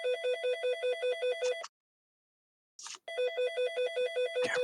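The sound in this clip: A voice imitates a phone ringtone with a quick, repeating warble of pulsed notes. It stops for about a second, gives a short breathy noise, then resumes the same pattern.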